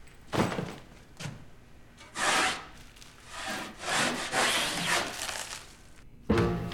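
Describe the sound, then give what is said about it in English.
A metal-bladed scraper rasps paint off a wall in several uneven, gritty strokes of varying length, separated by brief pauses and ending in one sharp, loud scrape. “He strips a chunk of paint off the wall, puts down his carry-on bag, then continues scraping.”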